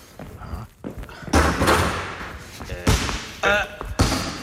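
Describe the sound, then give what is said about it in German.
A basketball bounced hard on the floor during training for an upcoming game, giving a few heavy, booming thumps at uneven intervals with softer knocks and scuffs between them. “Hey, aber das ist ja genau das Geräusch, was wir im Bett gehört haben. Ja, das warst du mit dem Ball.”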